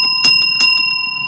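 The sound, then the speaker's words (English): A hand bell rings with a bright, sustained metallic tone, struck a couple of times by its clapper in quick succession, loud and alone. “I'm going to ring a physical bell, which sounds like this.”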